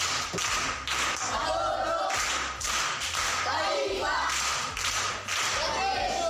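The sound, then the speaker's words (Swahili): Children in a class clap for a pupil, with bursts of clapping and thumps that come in uneven waves, mixed with voices talking and calling out throughout. “Makofi kwa mjomba.”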